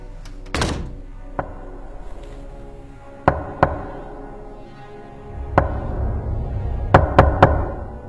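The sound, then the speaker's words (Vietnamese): Knocking on a door in a dormitory at night: a few sharp, dull knocks spread irregularly over several seconds, some in quick pairs and a closing run of three, over a low steady background. “Đêm hôm ấy đang thiêu thiêu ngủ, ký túc xá cũng bắt đầu yên lặng trở lại, thì tự nhiên tôi nghe có tiếng gõ cửa.”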